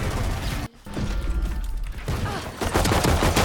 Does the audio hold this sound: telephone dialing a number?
no